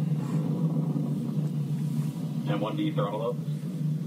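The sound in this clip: Falcon 9 rocket engines rumbling during launch around max Q: a continuous deep, even roar with a low hum, and a faint voice briefly heard partway through.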